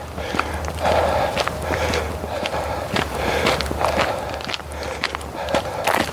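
Footsteps of a person hiking on a trail: many steady, even steps at a walking pace, fairly loud throughout, over a low, constant rumble.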